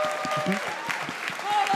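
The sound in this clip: Audience applause ringing out for a person after a fair move in a game, a dense, steady wash of clapping that holds at an even level throughout.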